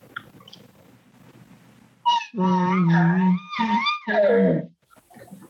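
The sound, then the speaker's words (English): A hunter's imitation of an elk contact bugle call, a little growly: a few faint sounds, then a loud whining, harmonic call in several rising and falling notes with a rough, low growl in the middle, ending abruptly. “So I might just throw a contact bugle out. And the contact bugle sounds like this.”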